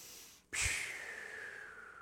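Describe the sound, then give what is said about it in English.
A deep cleansing breath starts abruptly with a snort-like rush of air. A long, steady, airy hiss follows and slowly fades, heard alone with no talk. “So take a cleansing breath.”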